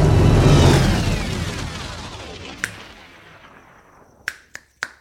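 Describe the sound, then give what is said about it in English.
Finger snapping to start a fire: after a loud, rumbling whoosh fades away, four crisp, isolated snaps ring out, the last three in quick succession. “Are you kids ready for the old finger snapping trick? What? Here it goes.”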